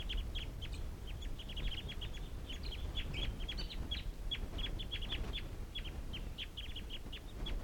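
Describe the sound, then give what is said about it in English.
A wild flock of birds calls just before taking off. Many short, high chirping calls come in quick, uneven bursts over a steady low rumble, with no voices. “And these are the wild birds calling. And it looks like they're going to take off.”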